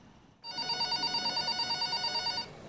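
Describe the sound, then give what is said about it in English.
A telephone at a gym rings with one continuous electronic trill lasting about two seconds, bright and rapidly warbling, then stops, leaving faint background hiss. “A woman at the gym stands up and answers the phone.”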